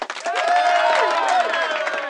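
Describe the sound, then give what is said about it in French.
A crowd at a medieval feast applauding and cheering, a dense steady wash of clapping with voices mixed in throughout, moderately loud. “Tous applaudissent et reconnaissent Simon.”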